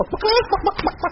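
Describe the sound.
A person imitates a clucking chicken with a quick run of several short, clipped, voiced clucks, fairly loud and lasting about a second.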